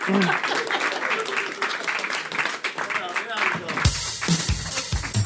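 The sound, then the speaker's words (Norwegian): Audience applause welcoming two performers onto a stage: dense, continuous clapping with a voice talking over it throughout. “Stor applaus for magen.”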